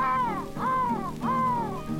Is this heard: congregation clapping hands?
no